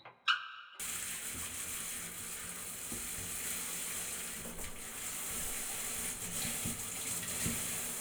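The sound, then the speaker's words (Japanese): Water runs in a steady, even hiss as shampoo is rinsed out of hair during a hair-washing session, continuing without voices after a short click at the start. “じゃあそろそろシャンプー流しちゃおうね。”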